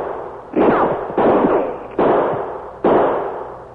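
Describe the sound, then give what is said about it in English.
Four loud, sharp gunshots ring out at a steady pace during an ambush in heavy undergrowth, fired from behind a big cottonwood tree. Each crack has a long decaying tail, and no voices are heard. “The shots come behind that big cottonwood tree to the right.”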